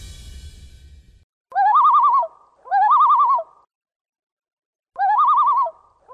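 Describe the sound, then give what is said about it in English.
A common loon gives its wavering, tremolo call: three loud, warbling phrases separated by pauses, with a fourth starting at the very end, after a brief low rumble at the start. “Oh, if you're a Minnesotan, you likely know that sound, and hopefully it creates a positive reaction and feeling in you as it does with us. You know, the Minnesota loon couldn't be more iconic.”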